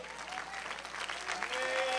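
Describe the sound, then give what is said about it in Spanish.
A church audience gives thin, lukewarm applause during a sermon: an even, continuous patter of many hands, moderately loud, swelling slightly toward the end. “Bueno, ese aplauso aguado, agárrenlo para ustedes.”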